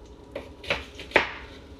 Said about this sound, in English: So once we finish cutting this onion up, you'll see we're gonna have a big pile of onions